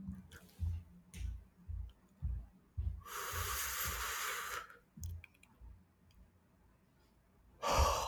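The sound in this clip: A person imitates smoking a joint with the voice: several short puffing sips, then a long, airy exhale, a few more quick puffs, and a final breathy burst, all fairly faint.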